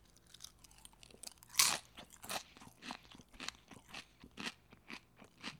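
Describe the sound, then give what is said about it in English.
An okra chip is bitten with one sharp crunch, followed by many rhythmic, crackling chewing crunches. The sound is faint and close, with no other sound around it. “Let's see how you guys like the sound of this okra chip.”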